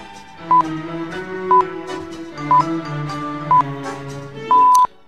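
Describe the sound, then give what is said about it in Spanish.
Radio half-hourly time signal pips: four short, evenly spaced high beeps about a second apart, then a fifth, longer pip, sounding loud and clear over a steady tonal background. “por mucho que sea típico de todas las radios prácticamente del mundo que yo conozca, de que cada media hora suenan los pitidos”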